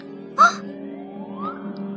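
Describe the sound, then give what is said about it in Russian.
A little girl lost in the forest cries out in a brief, high wail, followed by a softer whimper that slowly rises in pitch over a steady low drone. “О чем, деточка, плачешь? О чем маленькие слезы льешь?”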